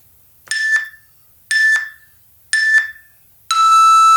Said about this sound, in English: The beeps will sound like this.